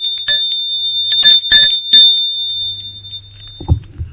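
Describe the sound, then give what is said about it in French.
A doorbell rings at the front door of a home one evening, sounding as a bright, high metallic ringing in several quick bursts, followed by a low steady hum. “on sonne à la porte.”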